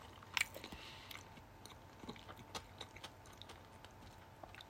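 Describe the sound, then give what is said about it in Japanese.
Chewing and biting into a convenience-store juicy ham sandwich with a mustard and cucumber mix. A few sharper bites come early, followed by many faint, soft crunches and mouth clicks in an uneven rhythm, with no talk. “このからし入りきゅうり混ぜの意味がよく分かんなくてうんうんやっぱハムサンド美味しいですよね”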